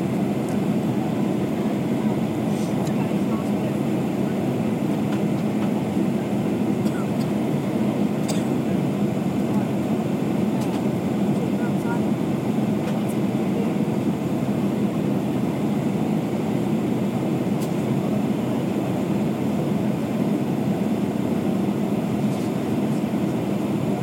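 An airplane rolls along a bumpy runway, producing a loud, unbroken roar of engine and rumbling noise that holds steady throughout, with faint scattered rattles and clicks.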